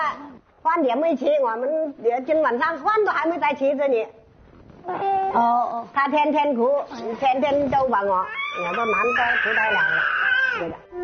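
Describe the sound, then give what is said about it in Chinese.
A baby cries in a string of high, wavering wails with short breaks between them, and an adult voice speaks at times. “宝贝，你哭了，宝贝。”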